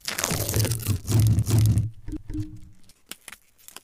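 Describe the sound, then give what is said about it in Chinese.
Crinkly rustling and tearing of packaging being opened for an ASMR demonstration, a dense, noisy burst for nearly two seconds, followed by a few sharp, scattered clicks and taps. “就是你拆包装”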